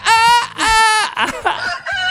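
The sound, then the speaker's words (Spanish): A voice imitates a rooster crowing, made for a character who wakes everyone up: two long, loud, strained high calls, then several shorter broken vocal bursts. “El abuelo Gallo es el que despierta a todos. Hace...”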